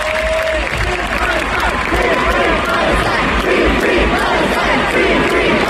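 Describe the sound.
A concert audience cheering and applauding, with a loud, steady roar of clapping and shouts that carries on without a break.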